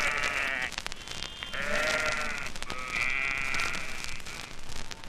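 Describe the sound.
Sheep bleating in the countryside: a few long, wavering, fairly loud bleats one after another, with no talk.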